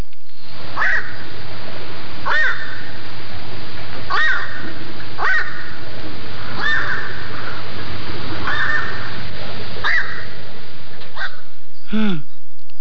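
Black-crowned night heron calls, harsh and crow-like: loud single croaks repeated at fairly even intervals, with a final call of a different, lower tone.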